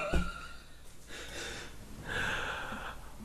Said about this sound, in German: Dein Empfang ist übrigens beschissen, ich höre dich nur atmen